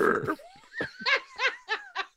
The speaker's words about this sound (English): I just burped over my shoulder there. Sorry. Sorry about that.